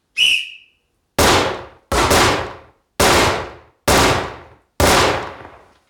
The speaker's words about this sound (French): Tireur, reculez à 10 mètres pour un tir de 5 cartouches.